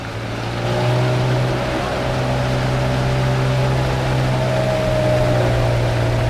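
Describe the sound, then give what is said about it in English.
A motorboat engine hums with a steady, loud, low droning tone, swelling slightly at the start and then holding an even pitch with a thin higher whine above it. “Well, back on the motorboat, I headed for our next stop, Paduran Village”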